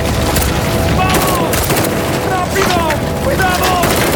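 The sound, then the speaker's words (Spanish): Gunfire rages during a firefight, with dense, continuous volleys and booming noise that stay loud throughout. There are no clear gaps between the shots. “Nos están disparando.”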